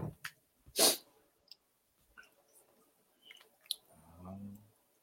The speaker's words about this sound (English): feel like I'm just trimming his head.